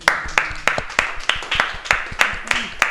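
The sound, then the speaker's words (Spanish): Applause from a teacher and classmates comes as rhythmic clapping in unison, about ten sharp, evenly spaced claps with voices mixed in beneath. “yo creo que se merece un aplauso de nuestra parte, de su profesor y de sus compañeros.”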